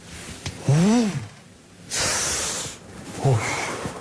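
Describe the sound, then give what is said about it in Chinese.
A sudden gust of cold wind rushes past as a short, steady hissing whoosh, with brief pitched squeals before and after it. “突然刮过了一阵寒风”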